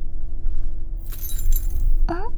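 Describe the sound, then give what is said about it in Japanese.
A small jewellery accessory dropping, giving a short cluster of light, bright metallic clinks and jingles that rings briefly before stopping, over a low steady hum. “何か落ちた。え、アクセ？”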